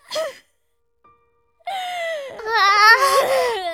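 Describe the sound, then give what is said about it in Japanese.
A child cries: a short sob, a brief silence, then a long high wailing cry that wavers in pitch and grows louder and shakier toward the end. “もう、泣いていたって何も解決しませんわよ。”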